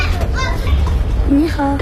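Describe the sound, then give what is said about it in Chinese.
Children play in the sunlit alleys of an old town, their high voices chattering and calling out in a lively mix, with one young voice rising briefly above the rest. “古城中阳光洒在巷道里，孩子们穿梭嬉戏”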